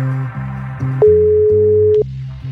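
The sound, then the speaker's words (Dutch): Telephone ringback on an outgoing call: a single steady electronic tone lasting about one second, clear and level, rising above a continuous tonal background before stopping abruptly. “Oh, het belt.”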